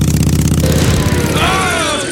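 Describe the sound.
Engine revving with an improvised carburettor made from a tomato can: a loud, continuous low harmonic drone, then higher whining tones climb over it in the second half.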